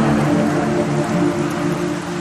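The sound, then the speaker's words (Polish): Rain drums on the roof of a car pulled over on a roadside shoulder. It makes a dense, steady hiss with a low rumbling patter underneath, loud and continuous throughout, with no voices. “Deszcz szedł falami, bębniąc po dachu.”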